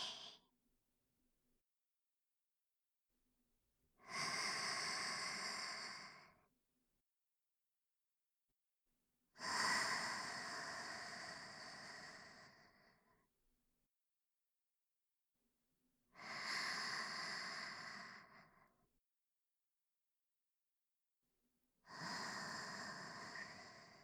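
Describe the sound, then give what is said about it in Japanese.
Slow, deep breathing in and out: four long, airy breaths rise and fade at an even, unhurried pace, each separated by several seconds of near silence. “吸って、吐いて。”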